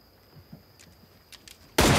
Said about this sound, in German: Hey! Sie schießen!